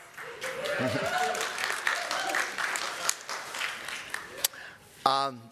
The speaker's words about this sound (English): wow, I've never been greeted with an applause in the pulpit.